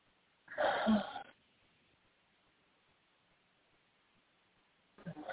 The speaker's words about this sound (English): Take a nice deep breath.